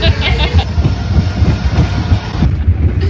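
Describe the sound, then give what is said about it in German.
A roller coaster rattles along its track as heard from the back car, a continuous low rumble with rapid rhythmic clacking that stays loud and steady throughout. “Wir sind extra ganz hinten eingestiegen, damit die Fahrt so schnell wie möglich ist, weil Achterbahnen sind hinten am schnellsten, hat uns der Simon verraten”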